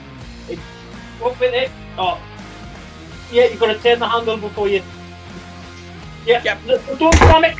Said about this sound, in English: You've got to turn the handle before you. Yep. Don't slam it.